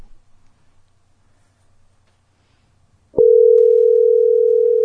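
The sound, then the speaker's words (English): A telephone call being placed: about three seconds of near silence, then a sharp click and a steady, loud mid-pitched dialing tone that carries on unbroken to the end. “We're just going to call him.”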